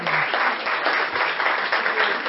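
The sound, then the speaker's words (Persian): An audience applauds with a loud, dense patter of clapping hands that swells and dips slightly but never stops across the whole stretch. “شما دو نفر باشید تشویقش کنید ایشون.”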